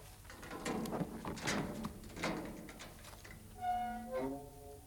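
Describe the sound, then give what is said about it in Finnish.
A castle gate being opened gives heavy, broad scraping and grinding, followed near the end by a brief run of high, tonal creaking squeals. “Sieltähän ne tulevat. Avaa portti.”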